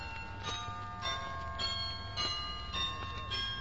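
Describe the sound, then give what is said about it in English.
Bells ring faintly in a steady, repeating rhythm, with regular strikes about every half second over sustained metallic tones, and no voices. “The bells will drive you crazy.”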